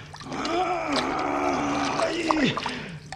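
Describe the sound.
Sea water splashes and churns around a fishing net being hauled in a radio drama, while a voice groans and strains over the watery sound.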